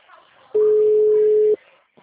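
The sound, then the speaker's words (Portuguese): A telephone line tone sounds on a call to a number that does not exist: one loud, flat, steady beep lasting about a second, with faint background noise before and after it. “Agora tá dando que o número dele não existe.”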